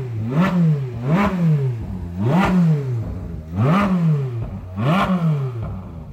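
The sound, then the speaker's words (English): A red Ferrari 458 Speciale revving on a race track circuit, its engine note climbing in pitch and dropping back in several repeated cycles, loud and throaty with a raspy edge, no voices. “So if you can hear the noise behind me, this is the noise of a Ferrari 458 Special.”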